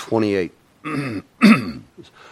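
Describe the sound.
A speaker clears his throat of lingering phlegm in a few loud, rough, voiced bursts separated by short silences, ending with a fainter one.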